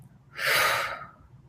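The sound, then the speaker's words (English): A single relaxed deep breath, a soft airy whoosh that swells smoothly and then fades over about a second, heard alone. “Relax your body, and the breath could just look like,”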